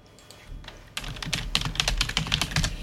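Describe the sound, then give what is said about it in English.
Typing a message into a Zoom chat on a computer keyboard: quick, irregular key clicks, sparse and quiet at first, then a busier, louder run of taps after about a second. No voices. “It's Zoom playing up on me. I've just had to type in the chat.”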